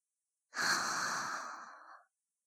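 Deep breathing during a slow relaxation exercise: one long, airy breath of about a second and a half, with a soft rushing hiss that swells quickly and fades gradually, heard alone without talk.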